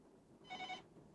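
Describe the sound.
A telephone rings as a listener calls in: one short, faint burst of warbling electronic ringing with a bright, buzzy tone, alone and without talk.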